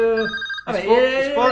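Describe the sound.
A telephone rings in a radio studio, a bright electronic warble that cuts off briefly and then starts again, with a voice partly overlapping.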